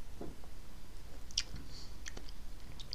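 Quiet, wet chewing and biting on food, with a few scattered moist clicks and soft squishes spread unevenly across the moment, no talking over it.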